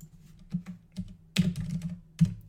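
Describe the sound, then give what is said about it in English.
Faint, sparse typing on a computer keyboard: a few scattered key clicks and taps spread unevenly over a couple of seconds, with quiet pauses between them. “And I now present to you my new Final Four that I've typed up.”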